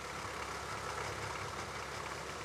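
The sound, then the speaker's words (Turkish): Faint, steady idling rumble of a vehicle engine as it drives a power take-off (PTO) shaft, a continuous low hum with no change in pace. “Şimdi PTO'yu bağlıyorum ve ilk donanıma gücü veriyorum.”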